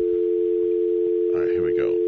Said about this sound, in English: Oh, geez, you got to dial a 1 or a 0 to call the number.